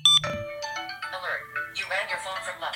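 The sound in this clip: A short, bright electronic phone ringtone, set off by double-pressing the button on a Tile tracker, chimes at the start before people begin talking over the rest.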